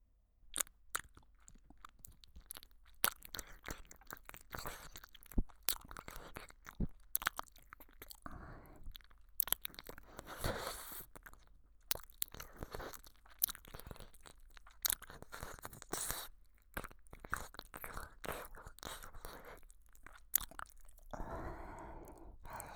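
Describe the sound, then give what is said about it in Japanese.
Wet ASMR mouth sounds of someone nibbling and licking the listener's ear: many soft clicks, smacks and little crunchy bites in an uneven stream, quiet and close, with no talking. “それじゃあ、早速、その期待に真っ赤に染まった可愛らしいお耳、ぱっくりさせていただきますね。”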